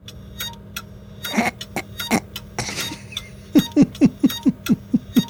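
An old, slow SATA hard drive, apparently a Maxtor, fitted in a 9900K PC and malfunctioning: irregular scraping and clicking noises, then a fast, regular run of about eight sharp ticking clicks.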